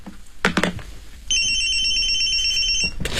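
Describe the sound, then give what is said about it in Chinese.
A telephone rings with a bright, high-pitched electronic trill that holds steady for about a second and a half, following a couple of short dull noises. “刘虎，按我说的接电话，快。”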